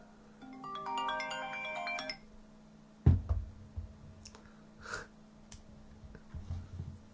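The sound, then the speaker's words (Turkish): A mobile phone ringtone for an incoming call from an unknown number, a quick melodic run of bright notes lasting about two seconds, followed by a sharp thump and a few scattered clicks. “Bir tane yabancı numara arıyor.”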